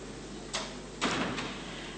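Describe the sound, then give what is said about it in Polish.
Two door-closing knocks from doors to neighbouring rooms of a meeting hall, a short one and then a longer, fuller one half a second later, moderately loud against a quiet background hum. “czy mogę poprosić o zamknięcie drzwi do sąsiednich sal, bo to chyba pogłos jest zbyt duży.”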